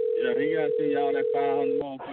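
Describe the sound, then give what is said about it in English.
A steady telephone tone sounds while a call is placed. It holds for nearly two seconds under a voice, then cuts off just before the end. “Y'all got to get Rico back on the phone.”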